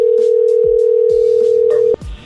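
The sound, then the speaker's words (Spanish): Telephone tone heard while a number is being called again: a steady, unbroken tone with a few faint clicks, which cuts off abruptly near the end and is followed by a brief muffled noise. “A ver, márcale de nuevo. En el segundo número.”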